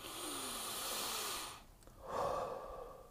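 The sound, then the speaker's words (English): A deep breath drawn by someone reading out lottery numbers: a long, loud, airy rush of breath, a brief pause, then a second breathy gust, with no talk. “let me just take a deep breath because this one is the coup de grace”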